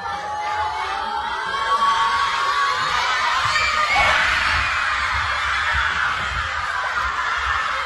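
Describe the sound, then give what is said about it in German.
Schoolchildren gathered at school to watch Austria's first World Cup match in 28 years cheer at kickoff, a sustained loud burst of high-pitched shouting, screaming and cheering that swells and holds. “Und die Kids konnten freiwillig quasi früher in die Schule kommen und da das Spiel gucken. Und nach dem Spiel, da startete dann der offizielle Unterricht. Und beim Anpfiff des ersten WM-Spiels für Österreich seit 28 Jahren klang das dann so.”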